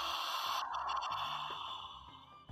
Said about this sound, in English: Take a deep, sharp inhale through your mouth.